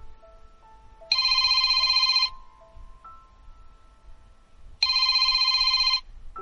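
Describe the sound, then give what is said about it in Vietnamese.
A telephone rings with an electronic, bright warbling tone in two sustained bursts of about a second each, separated by a pause with faint quiet tones between them. “Điện thoại vang lên.”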